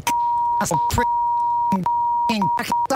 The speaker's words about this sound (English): And that high-pitched beeping sound coming out of her mouth.